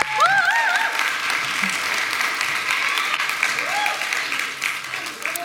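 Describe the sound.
Audience applause welcoming a speaker to a morning talk: steady, dense clapping that holds at an even loudness for about five seconds.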